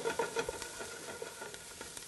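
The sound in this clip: Onions sizzling in a pan as the base of a sausage, white bean and kale soup, just starting to brown; a soft, steady crackling hiss with a few light stirring taps near the start, fairly faint and without speech.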